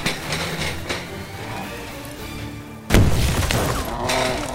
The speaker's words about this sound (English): Light that pipe bomb! I think this is our last one! Well, then make it count! Put it right at its feet! Get down!